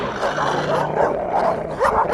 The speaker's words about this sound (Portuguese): Agora solte os cães de verdade.